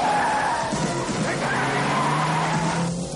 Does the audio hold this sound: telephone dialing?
no

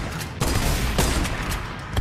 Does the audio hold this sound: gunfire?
yes

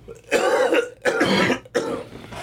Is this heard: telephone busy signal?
no

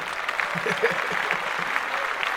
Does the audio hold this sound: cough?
no

